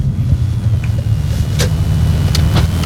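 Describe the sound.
A car's engine and road noise hum steadily at 3 a.m. while driving east to hunting grounds. The low rumble is continuous, with a few brief faint clicks above it.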